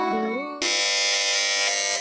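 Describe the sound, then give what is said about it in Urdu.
A team presses a quiz show buzzer, giving a loud, harsh, sustained electric buzz that lasts over a second, preceded by a short tonal sound. “جی تو اس بار سب سے پہلے buzzer بجائی ہے team اے نے۔”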